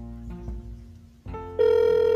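An outgoing telephone call plays its ringback tone: after a brief muffled stretch, a steady, loud electronic tone starts partway through and holds unbroken to the end.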